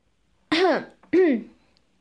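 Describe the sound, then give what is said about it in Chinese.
Two short, dry throat-clearing coughs from an annoyed adult in noisy surroundings, each a voiced, slightly tonal burst, evenly spaced about half a second apart, with no other sound around them. “在嘈杂的环境里，我略带生气的干咳了两声。”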